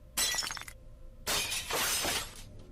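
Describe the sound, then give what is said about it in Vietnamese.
A bowl of herbal medicine falls and shatters on the floor in two loud bursts: a short sharp crash, a brief gap, then a longer scattering clatter of broken pieces. “Bỗng nhiên chát một cái, bà Tư vung tay, bát thuốc trong tay bà Ba rơi xuống đất vỡ tan tành.”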